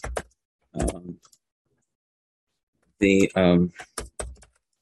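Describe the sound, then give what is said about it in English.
Typing on a computer keyboard: a few short bursts of clattering keystrokes separated by a quiet pause, with a brief voiced sound partway through. “Let me just type this out.”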